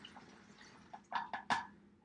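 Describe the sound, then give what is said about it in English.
Witch hazel is poured from a cup through a funnel into a bottle, making a few soft liquid gurgles and splashes that bunch together in the second half, faint and otherwise quiet. “I already poured my witch hazel into my cup here, so I'm going to pour that in to the bottle.”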